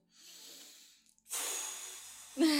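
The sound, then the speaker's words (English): Breath blown out through pursed lips in a smooth stream: a steady, breathy hiss holds for about a second after a softer breath, then a voice cuts in at the end. “So I'm making like this big, almost like kissy face to like blow the air out in a smooth stream.”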